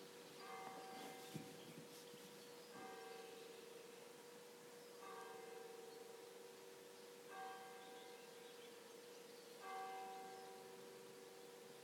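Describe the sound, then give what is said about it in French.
Meditation chimes ring five times at a steady, unhurried pace, each soft bell tone lingering and fading before the next, faint and alone with no talking. “Si nous sommes dans un environnement, respirez maintenant avec les carillons.”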